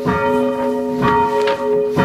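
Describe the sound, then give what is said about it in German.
A church bell is left to ring out undamped, its loud, sustained humming partials lingering steadily while a few fresh strikes swell the tone again. “Und schon wichtig ist, die Glocke ausklingen.”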